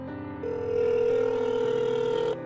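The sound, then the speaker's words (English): Telephone ringback tone heard after dialing a toll-free hotline number: one steady, bright electronic tone with rich harmonics, held for about two seconds before cutting off, with no voices. “Here's what you hear when you dial the number 1-800-GOLF-TIP.”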